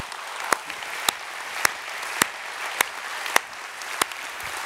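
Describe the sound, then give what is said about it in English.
A church audience applauding to honor mothers: a steady wash of clapping, with sharper claps cutting through at even intervals and no talk. “Summit Church at all of our campuses, could we put our hands together and say thank you and give honor to our mothers this weekend?”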